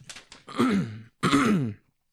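A person clears a phlegmy throat: a couple of faint clicks, then two rough, voiced rasping bursts, the second following a short pause, with no speech.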